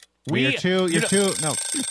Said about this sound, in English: I'm talking over the buzzer right now.